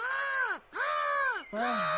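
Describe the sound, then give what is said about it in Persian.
Three drawn-out, harsh caws from a crow, each call arching in pitch and separated by brief gaps, loud and alone. “ای کاش من این صدا را داشتم زاغی جان، خواهش میکنم کمی برم قرقر کن. خب اگه خوشت بیایم باشه، بچه‌شم کمی قرقر میکنم.”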